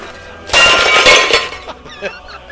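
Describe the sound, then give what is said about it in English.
Glass smashes loudly, a bright crashing burst of shattering that lasts about a second, then breaks off into scattered tinkles as a voice begins to speak. “I want to hear what he says after the smash.”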